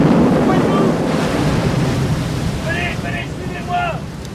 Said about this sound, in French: Le capitaine vient d'être emporté par une vague. Le navire va couler.